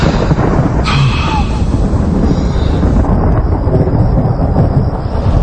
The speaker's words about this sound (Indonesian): aku dikagetkan dengan suara petir yang sangat keras dan membuat penerangan di rumahku ini mendadak mati.